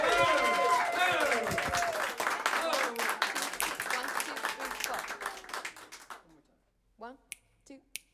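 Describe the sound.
Studio audience applause and cheering welcoming a singer and her band to a Seattle radio studio session: loud, dense clapping for about six seconds that then thins and fades, followed by a few brief, isolated sounds in near-silence.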